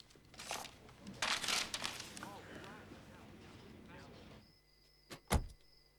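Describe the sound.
Paper being crumpled up, a sheet of someone's details screwed up in a hand: crisp crinkling rustles in a few dense bursts early on, then fading into quieter stillness with a brief sharp knock near the end.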